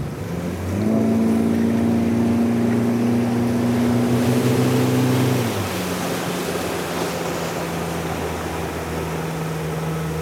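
Motorboat engine running while entering a sea canal: a steady, loud droning hum with strong tonal harmonics. About halfway through, the pitch drops and the drone carries on at a lower, slightly quieter level.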